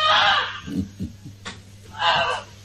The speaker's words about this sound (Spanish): este ganso mascota grazna a la familia porque se venía un incendio